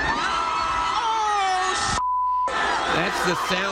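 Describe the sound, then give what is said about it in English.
A crowd of celebrating sports fans screams and yells in the street as a hotel awning they climbed collapses, a dense roar of shrill voices briefly cut by a steady beep tone before the shouting resumes. “That's the sound of an awning outside the Ritz-Carlton Hotel collapsing after fans climbed on top of it during the celebration.”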